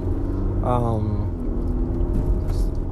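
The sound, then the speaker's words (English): A car driving, recorded on a phone inside the car, gives a steady low engine and road rumble beneath a person talking. “But what happens if you record from your phone as you hear me driving?”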